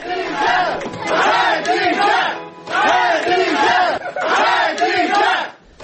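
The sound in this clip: Crowd chanting outside a district court in Baku: many voices shout together in three loud, rhythmic bursts separated by brief pauses.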